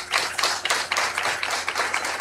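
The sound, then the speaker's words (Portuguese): A church audience clapping for a priest: steady, dense applause of many hands with a fairly even rhythm, moderately loud and without talk. “Uma salva de palmas ao padre Moésio.”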